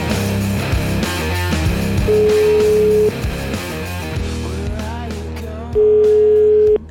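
A telephone line tone sounds while a call is placed to Switzerland: two steady, loud mid-pitched tones, each about a second long and separated by a few seconds, over a busy mix of other sound.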